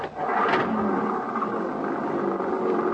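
Car engine revving as the car drives off, a loud, steady whirring roar with a brief sharp burst near the start, holding fairly even throughout.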